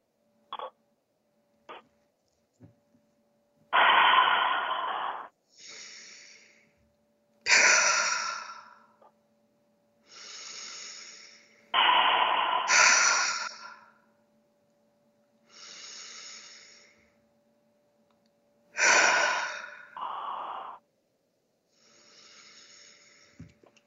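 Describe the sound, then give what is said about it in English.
A person breathes in through the nose and lets each breath out in a long, airy exhale through the mouth. Several slow breath cycles come in separate bursts with quiet gaps between them, over a faint steady hum. “Inhale through your nose, and then a release through your mouth. And try to make your release long”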